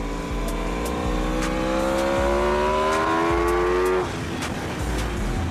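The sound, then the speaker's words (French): A motorcycle engine running on a track lap: a smooth, steady engine tone whose harmonics climb gradually as it accelerates, then drop abruptly before the engine continues at a lower pitch. “La douceur du moteur, c'est incroyable.”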